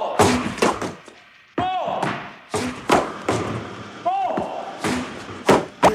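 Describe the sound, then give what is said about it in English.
Cartoon impact effect for a tennis ball striking a butler's face: a run of hollow thumps and knocks, with two springy, wobbling tonal swoops between them, at moderate loudness. “the butler got hit in the face with a ball, tennis ball.”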